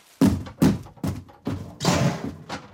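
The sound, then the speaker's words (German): Heavy thuds as a police special unit breaks down an apartment door: a series of hard, irregular blows, with a longer, rougher crashing burst near the end. “Rumsen. Krachen. Splittern. Die Spezialeinheit dringt in die Wohnung ein.”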